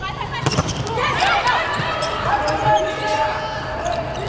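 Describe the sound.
A volleyball is served in a match, heard as a sharp single hit early on, set amid arena crowd noise and voices that continue throughout.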